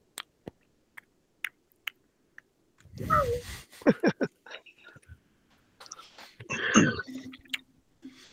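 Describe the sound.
Someone chews beef jerky with wet, crunchy mouth sounds in a few separate bursts, set apart by faint clicks and quiet pauses.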